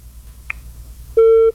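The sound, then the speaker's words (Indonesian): A single steady electronic beep of a telephone busy tone after a call was hung up, lasting about a third of a second and preceded by a brief faint click. “Ya, giliran udah diangkat, malah dimatikan teleponnya.”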